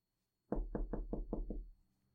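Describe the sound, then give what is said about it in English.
Knuckles rap on the door of a family-run shop, six quick, evenly spaced knocks with a hollow thud, heard alone against near silence. “knock on the door”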